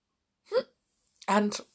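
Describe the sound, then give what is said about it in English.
A single sharp hiccup with a brief rising vocal squeak, followed after a short pause by a voice speaking. “Oh, sorry, I've got hiccups.”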